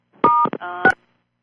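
Telephone keypad tones as buttons are pressed on a group call line: a few short, clear electronic beeps in quick succession, loud against silence.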